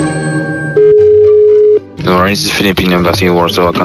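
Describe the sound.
A telephone tone sounds on a call to the Philippine embassy: one steady pitched tone of about a second cuts in over fading music, then voices talk.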